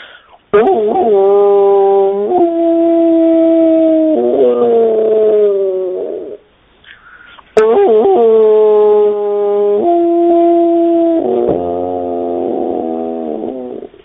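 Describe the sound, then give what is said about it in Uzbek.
A human voice imitates a wolf howling in two long, loud sustained phrases, each a tonal, harmonic-rich cry that steps between pitches before a brief pause separates them. “Bo'ri degan bir hayvon bo'ladi, o'sha nima, bu bo'rini ovozi mana shunday bo'ladi.”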